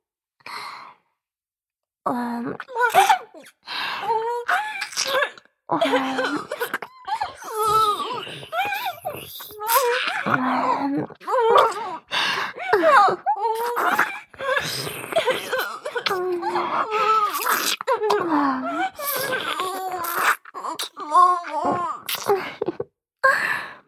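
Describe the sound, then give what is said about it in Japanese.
Crying and whimpering: a wavering voice sobs in many uneven bursts, with moaning, sighing rises and falls and short breathy catches, sustained and fairly loud. “あらあら、大丈夫よ。そんなに泣かないで。”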